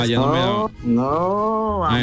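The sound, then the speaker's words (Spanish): A person imitates a cow mooing, with two loud, drawn-out vocal lows, the second longer and gently arching in pitch, then the start of another at the end. “Yo pensé que era una vaca, ¿cómo? No, Bambán. Uy, ¿cómo hace la vaca? Me gusta. ¿Cómo hace la vaca?”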